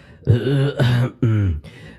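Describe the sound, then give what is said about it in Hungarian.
A voiced throat clearing performed as a storytelling sound effect: a few throaty, tonal bursts of 'ahem', moderately loud and alone, with short gaps between them. “megköszörülte a torkát.”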